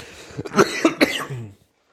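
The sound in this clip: Coughing after choking on something: three sharp, close coughs, followed by a lower throaty sound that trails off into silence.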